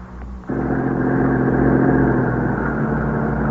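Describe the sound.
An ambulance arrives at night, its engine starting a steady low droning hum after a brief quieter lead-in and staying loud and even to the end.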